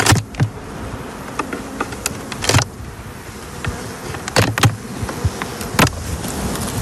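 Honeybees buzz at a beehive in a continuous, droning hum that swells and dips in loudness, punctuated by several brief, sharper bursts of sound.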